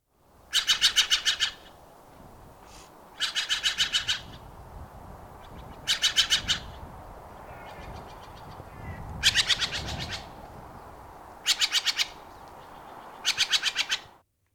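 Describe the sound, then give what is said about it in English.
Steller's jay calls, from a year-round resident in Juneau: six bursts of harsh, raspy notes repeated rapidly, each lasting under a second, separated by quieter gaps, with no voices. “What about the Stellar Jay? Now, you have given us some sound from that.”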